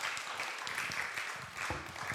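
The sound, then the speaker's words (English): An audience at a religious talk claps in steady, even applause that holds at a constant level throughout. “Give her a round of applause for doing that.”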